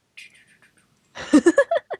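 Cat meowing indoors: a faint, thin high mew, a short pause, then a louder burst of several quick, chirpy meows in a row.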